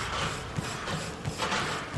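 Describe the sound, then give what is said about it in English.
Treadmills and elliptical machines hum steadily across a gym's main exercise area, a dense mechanical whir with faint, irregular rhythmic thuds and clicks beneath it and no voices. “Boston, you can already hear, past the giant rock-climbing wall, past the Olympic-sized pool, the hum of dozens of treadmills, elliptical machines, the clank of free weights in the main exercise area.”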